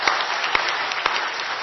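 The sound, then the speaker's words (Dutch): A gathering applauds to thank the people who made the decorations. The clapping is steady and dense, with a few sharper individual claps popping out above the even patter. “Applaus.”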